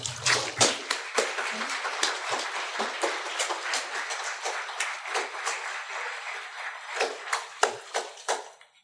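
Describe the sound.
Water splashes and sloshes during a baptism by immersion, with many irregular bursts of churning water coming and going in an uneven rhythm.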